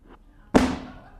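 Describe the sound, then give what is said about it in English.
A book pushed off the edge of a surface lands with a single loud thud, a sharp impact that fades away quickly. “Let me illustrate by just pushing this book to see how close I can get to the edge.”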